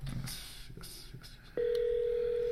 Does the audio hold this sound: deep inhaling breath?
no